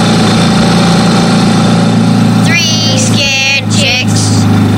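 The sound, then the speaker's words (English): A loud ATV engine with huge tires runs at a steady idle, a constant low, vibrating drone that holds at the same level throughout. “But as harmless as that little old lady was, her ATV was loud.”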